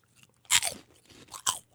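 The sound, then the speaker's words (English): Crunching of Quavers, a light British curly potato snack, being bitten and chewed: two sharp, crisp bursts of crackling, the first longer with a short tail and the second briefer, with no talk over them. “Quavers light curly potato snack. Okay. Yeah, they have like the texture of Funyuns here in America.”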